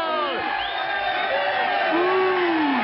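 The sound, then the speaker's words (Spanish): Crowd cheering and whooping at a team sports match, a steady roar of many voices with several rising and falling whoops over it, loud throughout. “¡Escuchen esa ovación! ¡Viva!”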